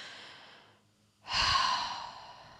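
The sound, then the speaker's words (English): A deep human breath: a soft, airy inhale, a brief pause, then a louder, long breathy exhale like a sigh that slowly fades, with no talking. “I'm going to take a deep breath just to get my body ready.”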